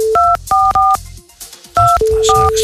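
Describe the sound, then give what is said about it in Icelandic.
Telephone dialing tones as a number is keyed in on a second phone line: several short two-tone beeps in quick bursts with brief gaps, and a steady lower tone sounding under the final beep. “Og síðan lítið á þennan takka Og síðan á hinni línunni Reynum við að hringja líka”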